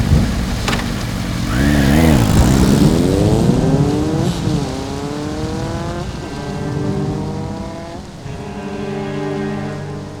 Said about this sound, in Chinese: 牵着机车，冒着一阵阵狂风巨雨骑了出去。